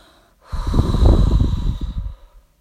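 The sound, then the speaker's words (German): A deep, breathy exhale pushed out through the open mouth during a guided breathing exercise: one long, loud rush of air lasting over a second, heard alone with no talking. “Und jetzt atme 3-4 Mal tief aus, durch den offenen Mund und gib es ihm zurück.”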